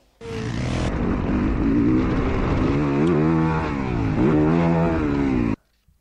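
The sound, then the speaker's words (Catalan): Loud four-stroke 250cc motocross motorcycle engine running hard throughout, with a rough, buzzing drone that surges in pitch twice as the throttle is blipped, then cuts off abruptly. “Això és una moto de motocross, no et puc dir la marca, però sí que et puc dir que és una moto de 4 i mig, de 4 temps, de motocross.”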